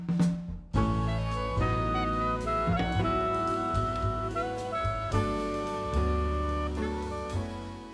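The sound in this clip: Jazz from a mood album played by a small ensemble: warm sustained chords over a deep bass line, with a few sharp accents and cymbal shimmer. The music runs at a steady, mellow level.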